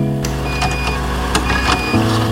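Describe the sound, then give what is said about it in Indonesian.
An air conditioner switches on with a steady mechanical hum and whirring tones, a few brief clicks, and a shift in its tone near the end. “Woi, siapa sih yang nyalain AC tapi nggak ada orang?”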